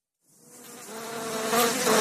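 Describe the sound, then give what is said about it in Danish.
Bees buzzing in a continuous, droning hum that starts after a brief silence and grows steadily louder to the end, with no other sounds. “Jeg giver lidt bier, ikke? Jeg har lidt mere bier på.”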